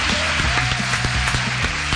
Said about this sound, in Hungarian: Tapsoljuk meg, Misi. Kettes stúdiós tapsol.